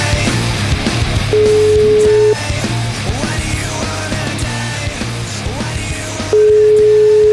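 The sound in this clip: A telephone call rings out on an Italian line, with two long, steady electronic ringing tones separated by a gap of several seconds, each loud above constant background sound.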